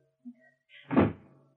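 A door being forced open: a faint brief knock, then a muffled scraping push that ends in a heavy, dull thud. No voices are heard.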